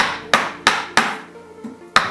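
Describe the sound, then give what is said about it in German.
A knife set into wood at a 45-degree angle is struck to strip off the bark, giving five sharp, hard knocks at a fairly even pace. Each knock fades quickly, and the fourth is noticeably softer than the rest. “Zum Entrinden deines Holzes setzt du dein Messer etwa in diesem Winkel von 45 Grad an und während dem Schlagen wirst du im Winkel flacher.”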